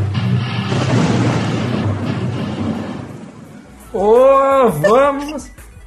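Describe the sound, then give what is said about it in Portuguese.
Thunder rolling as a broad, noisy rumble for about three seconds, then fading out. A voice with wavering pitch follows near the end. “Esses trovão são foda, cara. Trovão é foda.”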